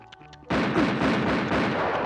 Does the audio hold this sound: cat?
no

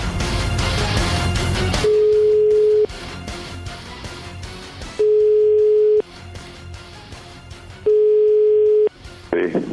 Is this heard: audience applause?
no

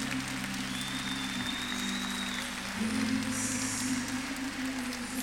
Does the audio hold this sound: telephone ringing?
no

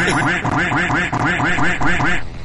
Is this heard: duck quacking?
yes

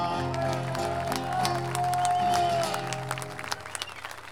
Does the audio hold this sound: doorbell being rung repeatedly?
no

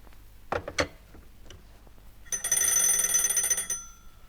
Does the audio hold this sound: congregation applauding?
no

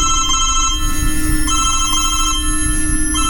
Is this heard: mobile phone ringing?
yes

